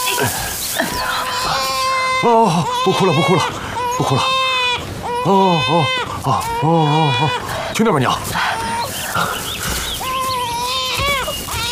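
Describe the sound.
A baby cries loudly just after being handed over, in sustained wailing bursts with brief catches of breath, the pitch bending up and down through each cry.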